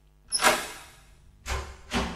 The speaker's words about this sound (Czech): Budeme muset ty dveře vyrazit.